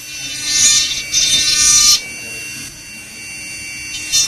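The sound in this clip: A small milling tool grinds material off a hearing aid earmold with a high, whining buzz. It comes in two loud bursts, then drops to a quieter hum before a short final burst.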